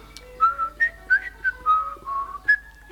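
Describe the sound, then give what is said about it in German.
A person whistles a short, bouncy tune of several clear, high notes, each note sharp and fairly loud with brief gaps between them, with no other sound around. “Ja, ich kann pfeifen.”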